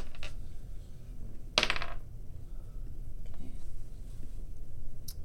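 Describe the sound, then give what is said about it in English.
Dice rolled for damage during a tabletop role-playing game: one short, bright clattering burst stands out over a steady low background rumble, then the rumble continues alone. “Wrong dice. Can I just use the automatic one? I want to roll a dice.”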